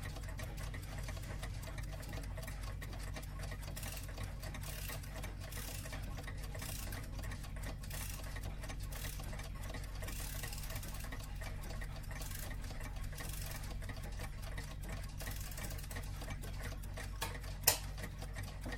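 Many old battery-powered alarm clocks tick together in a dense, rapid, steady patter that stays faint throughout, with one sharper click near the end.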